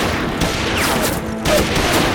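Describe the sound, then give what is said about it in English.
Gunfire from two masked riders shooting at a stalled wagon, a dense, continuous crackle of shots with a few sharper bursts standing out, loud and with no talk over it. “Two masked riders came into view, saw the stalled wagon, and opened fire again.”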